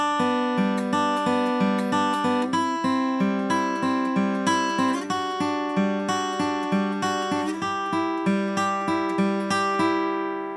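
Many bright plucked notes on an acoustic guitar form a backward banjo roll picked over chord shapes, flowing at a steady rolling pulse while the chords change a few times, ringing alone without voices.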